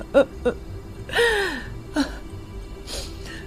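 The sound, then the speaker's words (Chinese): A person crying, someone who has come to a family's house early in the morning, in a drama: a few short gasping sobs and one drawn-out whimper that falls in pitch, with no words. “别哭了啊”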